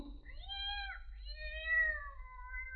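A cat meows once in a single drawn-out call whose pitch wavers, heard alone over a faint, steady low hum.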